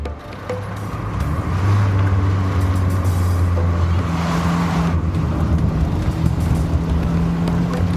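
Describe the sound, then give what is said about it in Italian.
A car shifts into gear and drives off, its engine giving a steady loud hum with a low droning tone that steps up in pitch partway through, with no talk. “Ingrana la marcia e riparte senza pronunciare una parola.”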